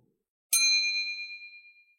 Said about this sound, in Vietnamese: Đế cung ra sức lắc cái chuông màu tím hồng xóa bỏ nguyên thần của Thạch Hạo